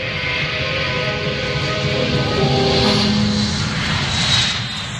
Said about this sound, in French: Nous voici dans cette ambiance à la fois électrique et feutrée de l'aéroport de Genève.